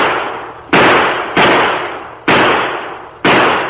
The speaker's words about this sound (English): He's in no danger. My shots didn't come within a dozen feet of him. That was a warning!